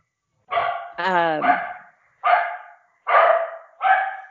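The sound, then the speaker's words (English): Dogs barking at bears on a porch: a few loud, tonal barks with a howling, yowling edge, coming in separate bursts with short gaps between. “That's just the dogs barking at bears on the porch.”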